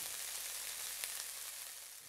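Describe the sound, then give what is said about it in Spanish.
Oil sizzles while food fries, a faint, steady high hiss with a couple of small pops partway through and no talking. “Pues es el sonido que hace ese elemento tan conocido al momento de freír algo. ¿Sabes cuál es? Sí, exacto. Es el aceite.”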